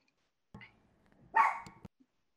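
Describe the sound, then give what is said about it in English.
A dog barks in a couple of rough bursts, the second longer and louder than the first, with a faint short yelp after. No one talks over it. “Hold on. Let them dogs bark, bro.”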